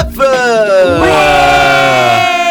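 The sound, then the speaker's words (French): Wild cheering from a live evening show audience: loud sustained shouts and whoops with ringing, siren-like tones that hold steady for the whole clip. “et c'est un public en délire qu'on a ce soir. On est très heureux de vous avoir.”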